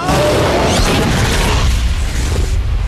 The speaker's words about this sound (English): Sarge opens his eyes to see an ST grenade slowly plummeting towards his face.